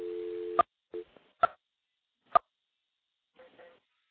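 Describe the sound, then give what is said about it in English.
An electromechanical telephone switch gives a steady, buzzing dial tone for about half a second. A click cuts it off, then come a short tone burst, a few sharp isolated clicks and a faint final burst of tone. “Now we're going to go back into another electromechanical switch. There's a dial tone.”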